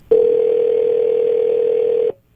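A telephone dial tone sounds as a call is placed: one steady, unbroken tone holds at an even level for about two seconds and then cuts off cleanly, with nothing else heard.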